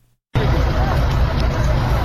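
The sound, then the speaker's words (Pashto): Loud, steady vehicle noise mixed with voices as people try to free a car stuck in mud on a badly damaged road in Nesh district, Kandahar. It starts abruptly and holds a constant roar. “د کندهار د نیش ولسوالۍ ته پر دغه غزیدې لار خلک دغه موټر درایستلو په اڅه کې دي چې د لارې د خرابوالي لامل په یو مند کې بند پاتې دي”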